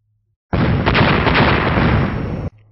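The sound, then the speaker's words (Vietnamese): Thunderous explosion sound effect in a fantasy audiobook: a loud, dense roaring blast that cuts in abruptly, holds for about two seconds with a few sharper surges inside it, then stops suddenly. “Sau 4 tiếng nổ long trời vang lên”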